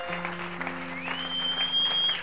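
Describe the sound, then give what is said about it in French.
A church audience applauds and acclaims God. Steady clapping runs under a sustained organ-like chord, and a high gliding tone rises partway through. “Mets-toi à bénir Dieu en l'acclamant très, très fort.”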